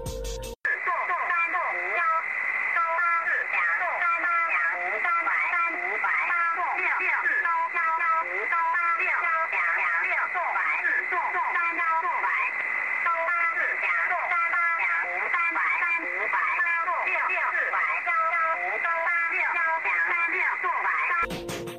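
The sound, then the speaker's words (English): Rapid robotic synthesized voice of the VC01 Chinese numbers station, picked up on a Hong Kong receiver, reading numbers at about three per second in a steady, unbroken stream over constant shortwave radio hiss. “We had a listen to VC01, the Chinese robot, heard on the Hong Kong receiver. That one's quite amazing. You have to hear it. It speaks 3 numbers per second. Listen to this.”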